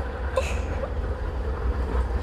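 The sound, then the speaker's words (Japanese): Low, steady rumble of a single-car, one-man electric train pulling into a station, with a brief high hiss near the start over the constant drone. “あ、ちょうど電車が到着しましたよ。”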